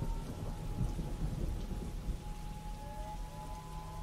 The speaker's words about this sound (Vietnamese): Đêm hôm mưa gió, sấm đánh đình đùng như là chống duyệt binh.